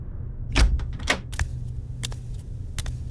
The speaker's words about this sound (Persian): همش توی اتاق راه میرفتم تا اینکه صدای باز شدن در اومد.